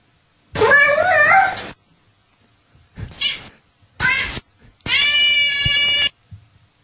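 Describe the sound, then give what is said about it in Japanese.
Cat meows played back as a registered sound source in a voice app: four separate loud calls with pauses between them. The first is long and wavering, the middle two are short, and the last is long and sustained. “音源をいろいろ登録できるんで、例えば猫の声とかですね。”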